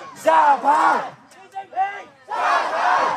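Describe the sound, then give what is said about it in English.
Crowd of Chinese protesters chanting in unison for the ruling Communist Party and its leader to step down. Loud, rhythmic shouted phrases give way to a brief lull with scattered voices, then the chant surges back. “This is the sound of Chinese people chanting for their ruling Communist Party and its leader, Xi Jinping, to stand down.”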